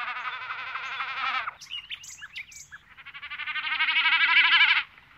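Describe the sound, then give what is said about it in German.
An imagined Tyrannosaurus call that croaks and chirps like a bird: two long, loud, buzzy trilling calls, with brief squeaky chirps in the pause between them. “Vielleicht haben Tiere wie der Tyrannosaurus nämlich gar nicht gebrüllt wie ein Löwe, sondern eher gekrächzt und gechilpt wie ein Vogel.”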